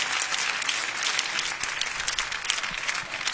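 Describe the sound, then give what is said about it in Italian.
Audience applause for Chiara on stage, dense and steady clapping with no talk over it. “Complimenti a questo fenomeno che abbiamo trovato lo scorso anno. Un grandissimo applauso a Chiara, signore e signori.”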